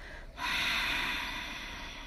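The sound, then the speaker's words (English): A single long exhale during a guided breathing exercise, a steady airy rush of breath that begins abruptly and holds loud for the rest of the moment. “咱先過來喘氣一擺，exhale first”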